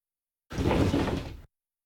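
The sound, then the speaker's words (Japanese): A sliding door into a kitchen is pushed open in one smooth, rumbling glide lasting about a second, alone against silence. “引き戸を開けて台所に入ると”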